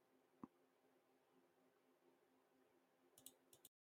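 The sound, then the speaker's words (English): Faint mouse clicks while browsing rental prices online: one crisp click, then a small cluster of clicks near the end, over a quiet steady hiss. “Is this fun listening to me click and talk about prices?”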